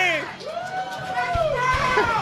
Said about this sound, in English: Why the hell are you yelling?